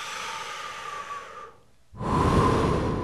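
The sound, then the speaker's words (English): A person takes a natural, unforced breath, heard as two soft, airy stretches of breathing separated by a brief quiet gap, with the second stretch fuller and slightly louder. “So when I say take a breath, do it naturally and effortlessly.”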